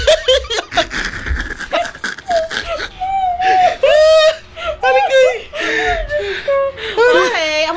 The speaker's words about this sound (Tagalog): Bakit ka umiiyak?